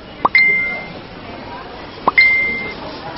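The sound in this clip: A phone message notification tone sounds twice, each a short click followed by a clear, steady high ping, with a quiet gap of nearly two seconds between them.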